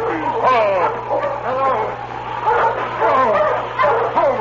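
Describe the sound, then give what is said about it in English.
A sled dog working in harness barks warnings, giving a few sharp yelping barks and whining yips in uneven bursts that carry clearly through the whole stretch. “He barked a warning to his master when he saw the team heading toward them.”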